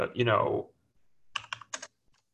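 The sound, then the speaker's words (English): Typing on a computer keyboard while building details are entered into a mixing-valve sizing application. A voice speaks first, then a few quick, crisp key clicks follow in an uneven burst. “you can type in all your information about the building”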